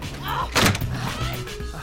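A closet door slams shut with a single heavy thud partway through, set against a steady tonal hum and faint background sound.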